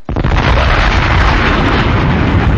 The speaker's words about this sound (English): That's a bomb.